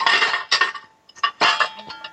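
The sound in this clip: Bowl and dishes clink and clatter during barbecue sauce preparation, with a few separate bursts of bright knocks and rattles and short quiet gaps between them.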